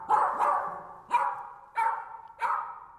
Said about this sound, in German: Klingt nach einem deutschen Pudel, oder?